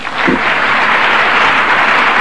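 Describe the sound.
An audience applauds to welcome a speaker in Little Rock, a dense, steady wash of clapping that stays loud and even for the whole clip.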